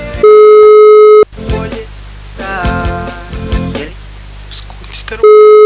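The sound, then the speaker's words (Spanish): Telephone ringback tone of an unanswered call: two long, steady, loud electronic tone bursts, one at the start and one at the end, with voices talking in between. “Vamos a llamar. ¿Quién es este? Parece que medio que conoce. Escuchen, escuchen. Contesta, sonso.”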